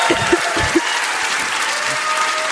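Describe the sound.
Audience applause at a live debate on whether Joe Biden would win the Democratic nomination: steady, dense clapping that fills the whole stretch, with a few soft low thumps early on.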